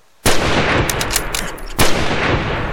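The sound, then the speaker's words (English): Two gunshots from a gun fired at squirrels in a tree. Each is a loud, sharp crack, about one and a half seconds apart, and each trails into a sustained rush of noise. “You got both of them. Yep, works every time. You just shoot the one furthest in back first and get the other one before he realizes what's happening.”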